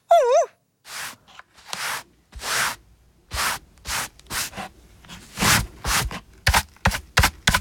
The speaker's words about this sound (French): Ouf ! C'est fini. Tout est rangé. Il ne reste plus qu'à balayer.